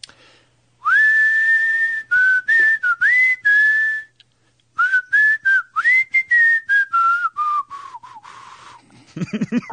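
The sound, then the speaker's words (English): A person whistles a rock song as a clear, fairly high melody with sliding notes. It comes in two phrases split by a short pause, and the second phrase tails off lower and weaker at the end. “We're not good whistlers, but I am going to attempt to do one of the songs that you're likely to hear on stage from one of the bands playing the K-Rock LA Invasion”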